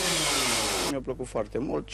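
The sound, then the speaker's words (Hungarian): Chainsaw roaring as it cuts thin slices from prepared poplar wood at a timed sawing competition, a loud, harsh buzz for just under a second before it stops and a voice talks over the quiet. “Románia tavalyi bajnoka 5-6 másodperc alatt vág vékony szeleteket a láncfűrésszel az erre előkészített nyárfából.”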